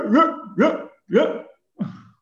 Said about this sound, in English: And sorry for my dog. My dog's crazy right now.